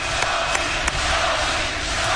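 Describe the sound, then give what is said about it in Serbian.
Many voices of a crowd chant together in a dense, loud, continuous roar that holds steady throughout, with a few faint accents breaking through. “Dobili ste vest, tu smo, ja puštam da vi čujete ovo skandiranje, kužite.”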